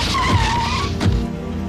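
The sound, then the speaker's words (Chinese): Cars and motorcycles approach from not far off, giving a loud rush of motor noise with a brief high, sliding tire-squeal tone and a couple of dull low thumps before the noise eases slightly. “这时候不远处传来了汽车和摩托车声”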